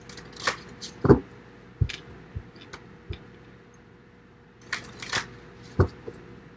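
Playing cards being handled give sharp snaps and taps, scattered irregularly with quiet gaps between them.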